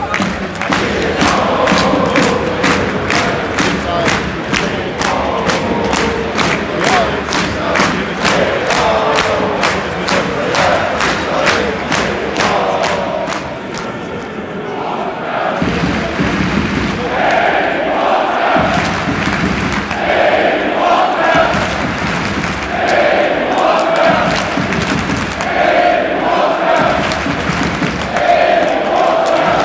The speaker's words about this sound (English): we like to give the legend of RB Leipzig, the King of the North, Emil Forsberg, the farewell he deserves. So let's hear it, boys and girls.